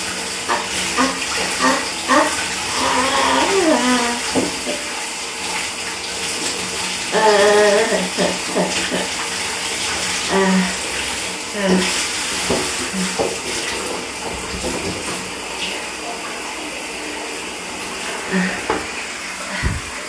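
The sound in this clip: Shower water rinses a man's body in a steady, hissing spray with shifting splashes and occasional clatters, while he speaks briefly at times.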